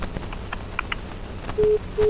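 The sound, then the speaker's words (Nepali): A telephone line sounds a busy tone after the caller hangs up. Two short, steady mid-pitched beeps come near the end over a constant faint high whine. “Hello hello भन्दाखेरि phone काट्दा भाग्ने”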